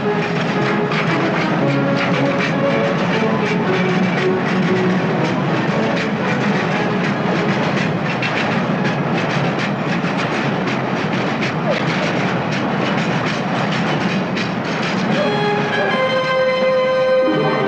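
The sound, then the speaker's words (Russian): A train speeding across snowy fields gives a loud, continuous rumble with dense rhythmic clatter that holds steady throughout, with faint tonal hints near the end. “Поезд мчится через заснеженные поля.”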